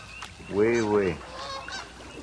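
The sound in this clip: Canada goose honking: a loud, drawn-out nasal honk, heard alone.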